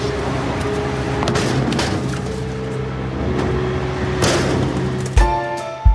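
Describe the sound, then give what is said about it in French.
Old tyres, dozens of them, are dumped from a truck's tipping bed in front of a Leclerc supermarket in Agen during a farmers' protest. A steady engine-like rumble gives way to two heavy, loud thumps near the end. “La benne s'ouvre et des dizaines de vieux pneus s'entassent devant un supermarché Leclerc à Agen.”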